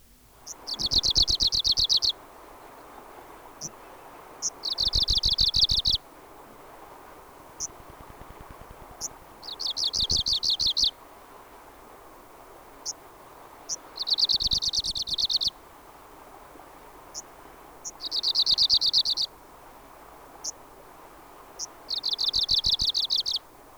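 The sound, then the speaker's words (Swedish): An arctic warbler sings six rapid, dry, high-pitched trilling phrases at fairly regular intervals. Short single call notes fall between them, and faint background hiss runs underneath. “nu följer nordsångare”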